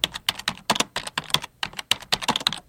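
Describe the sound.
Rapid typing on a computer keyboard: many crisp, clicky keystrokes in uneven bursts with short pauses between them, heard on their own.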